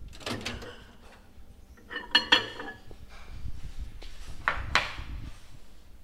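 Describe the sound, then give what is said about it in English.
A spoon stirs a melted mixture in a bowl, scraping softly and giving a few sharp clinks against the bowl's side in a quiet setting. “Okay, we'll take that out and give it a stir and then pop it back in.”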